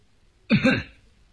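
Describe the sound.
A single cough from someone standing nearby, one short rough throaty burst with a brief tail, sounding alone against a quiet background.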